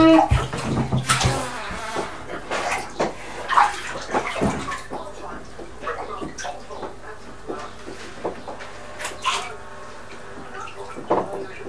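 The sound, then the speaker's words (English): Bathwater splashes and pours as hair is rinsed out in a bath. Irregular sloshing bursts are loudest early on, then soften into lighter splashes and drips, with faint voices at times. “Right, lie back. Darling, just lie back to rinse it out”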